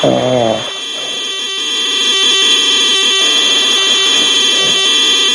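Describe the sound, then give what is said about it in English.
ZX81 computer game loading tones: a constant loud electronic screech and buzz with steady high whines and faint rhythmic pulsing running through the whole stretch. “There's a fat man asleep and a ZX81 game loading.”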